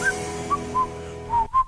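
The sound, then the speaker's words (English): Whistled melody from a song: five short, clear high notes in an unhurried rhythm over faint, steady low tones, with no voices. “I'll just throw the whistling in there”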